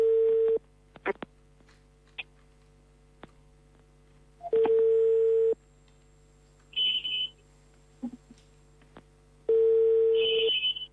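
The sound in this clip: A telephone rings out while a call is placed to a radio guest: three long, buzzy ring tones separated by pauses, with brief high electronic beeps in the gaps.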